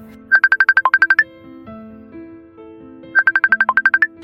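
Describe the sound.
A mobile phone ringtone for an incoming call: two bursts of rapid, bright electronic chirping pulses, each a quick run of about a dozen beeps, separated by a pause of roughly two seconds, over a soft low held tone.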